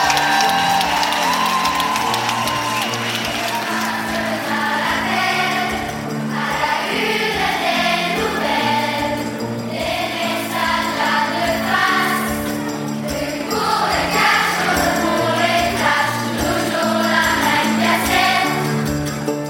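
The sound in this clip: Crowd applauding and cheering warmly to welcome 300 children of a singing school's choir: sustained clapping mixed with voiced cheers and whoops that swell and ease over the stretch.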